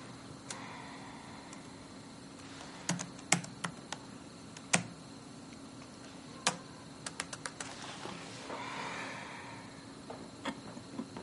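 Typing and deleting text on a computer keyboard: faint, irregular keystroke clicks come in scattered bursts, with sharper isolated taps among many softer ones, and no voices.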